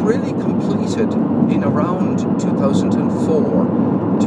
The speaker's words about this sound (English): So this is the sound of the car.